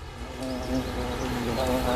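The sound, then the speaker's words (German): Buzzing of bees, a faint, steady hum with a slightly wavering pitch that continues throughout. “Bienen spielen dabei eine zentrale Rolle. Wildbienen und Honigbienen übernehmen diese wichtige Aufgabe.”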